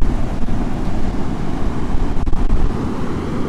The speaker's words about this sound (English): it's still blowing a gale. I seem to be plagued by winds on this walk.